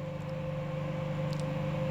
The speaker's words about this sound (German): ja, wozu hat man eine Mikrowelle, ne?